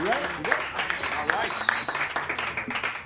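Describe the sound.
An audience clapping hands at a live show, a brisk, crackling patter of many hands with voices calling out over it, rising into a few louder swells.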